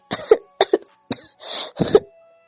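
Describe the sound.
Violent dry coughing from a woman kneeling on the ground with blood at her mouth: a series of harsh, loud coughing bursts in short clusters, with a rasping strained stretch partway through and no talk.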